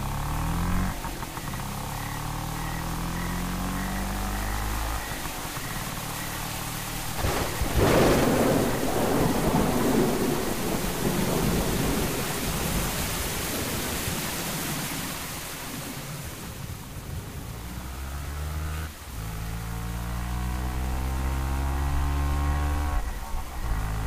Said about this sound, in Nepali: बाबु, पानी परिरहेछ, हेर, रेनकोट लिएर जा त।